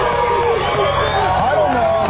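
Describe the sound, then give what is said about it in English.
A crowd of people gathered in Sacramento makes a dense, steady babble of many overlapping voices, continuous and fairly loud throughout. “We got a crowd of people here.”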